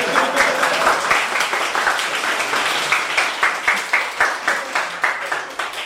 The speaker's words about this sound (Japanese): もう今でもやる前にエラーが落ちましたから拍手してください。